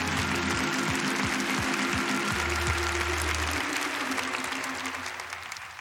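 A church audience cheers and applauds in a dense, steady wash of clapping that slowly fades toward the end, with a low tone and scattered thumps beneath.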